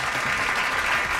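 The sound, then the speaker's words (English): A golf clap: a brief, dense patter of hand clapping, even and unbroken for its short length, with no voices. “Golf clap. Yeah, you know, I think that deserves a golf clap.”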